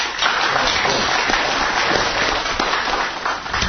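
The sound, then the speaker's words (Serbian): Applause from an audience at a literary event, a loud, steady wash of many hands clapping that continues evenly throughout without voices standing out. “Zaista, jedan aplauz za njega.”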